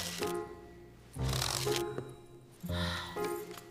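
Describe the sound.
Playing cards are handled for a fortune-telling reading: two brief papery shuffling bursts, each about half a second, rise over soft sustained tones.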